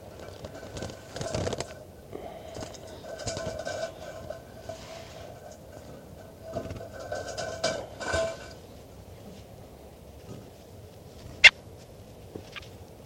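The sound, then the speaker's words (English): Faint rustling and scratching as a bird is handled during a recording, with soft irregular scuffs and a single sharp click near the end. “So recording, this is bird 410 being handled.”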